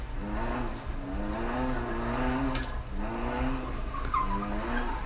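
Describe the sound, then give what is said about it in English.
Car tyres squeal in a continuous skid while the car drifts with the handbrake pulled. The squeal wavers in pitch over a low, steady engine drone. “she's pulling the fucking e-brake. That shit's sick, dude.”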